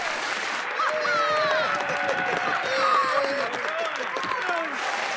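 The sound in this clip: Steady clapping and cheering from an audience after a performance, sustained at an even level. Voices rise over the clapping throughout.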